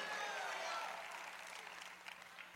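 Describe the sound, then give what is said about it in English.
A church audience applauds and cheers in a room, a steady, fairly faint wash of clapping and crowd noise that eases off slightly toward the end. “If you're ready to take ground, make a little noise in this room.”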